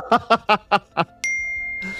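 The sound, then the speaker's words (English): A text message notification chime sounds on a screen: a bright, clear ding rings out and lingers after a few short voiced bursts, then fades under a faint hiss. “Oh, you're getting a text message on your screen.”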